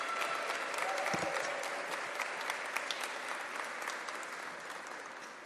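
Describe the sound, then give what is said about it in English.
An audience applauds the mayor with steady, sustained clapping from a crowd that fades slightly toward the end. “Give it up one more time for Mayor Daniel Lurie.”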